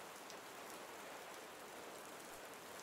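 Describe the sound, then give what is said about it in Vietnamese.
Heavy rain falling: a continuous, dense hiss of drops, soft and even throughout with no breaks and no voices. “Mưa vẫn rơi ngày một nặng hạt, đến mức rơi rác cả mặt cô.”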